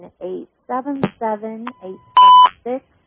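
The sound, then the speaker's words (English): A single short electronic beep signals an incoming phone caller on a call-in line. The steady, clear tone sounds partway through while a person is talking. “I can tell from that beep we already have a caller.”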